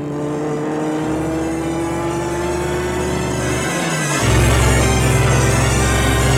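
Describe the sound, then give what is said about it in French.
A car drives through the sleeping streets of Paris at night, its engine a steady low hum that shifts partway through to a louder, fuller drone and holds there. “Et il roule dans un Paris endormi.”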